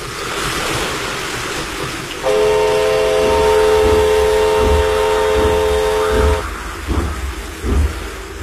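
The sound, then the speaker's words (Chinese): A train slowly rolls onto a flooded track bed during a rainy test run. Its low rumble mixes with a steady wash of water noise, and a sustained whistle-like chord holds through the middle before fading back into the rumble. “火车慢慢地驶了过来，驶进了漫着水的路基。”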